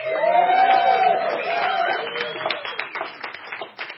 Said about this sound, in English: And we have a live audience here, very, very full of vibrance and celebration. Are you not?